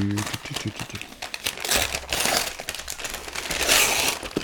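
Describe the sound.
Gift paper crinkles and rustles as presents are unwrapped, a dense, crackling stream of crumpling that runs throughout with brief bursts of louder tearing, while voices speak near the start.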